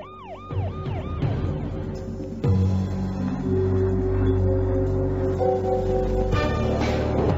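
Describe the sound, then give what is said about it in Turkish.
Police car sirens wail with quick rising and falling tones at first, then shift into steadier, overlapping siren notes that stay loud throughout with no voices. “Evet evlat, polis arabalarının sesi. Bizi kurtarmaya geliyorlar.”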